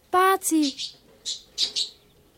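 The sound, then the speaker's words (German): A budgerigar chirps in a radio play: a few short, high chirps separated by brief gaps, following a short voiced call at the start. “Bazilein, wie kommst denn du da rein? Ja, hab ich's nicht gesagt. Du sag einmal, ist das ja wirklich dein Vogel?”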